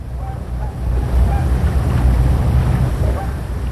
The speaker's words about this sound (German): Die Spree fließt friedlich durch schöne Weide.